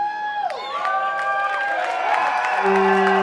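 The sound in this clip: An audience cheers in a loud, continuous roar of voices with high, sustained whoops rising above it, filling the whole short clip without a break.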